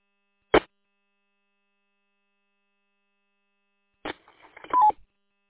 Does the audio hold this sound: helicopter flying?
no